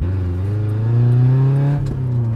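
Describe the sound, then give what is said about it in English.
An old four-cylinder car accelerating hard gives a loud, steady engine drone with strong harmonics. The tone climbs slightly in pitch as the engine is pushed. “then it starts to really accelerate. And the acceleration is much higher when I push hard on the gas pedal. This is impressive for an old vehicle with four cylinders.”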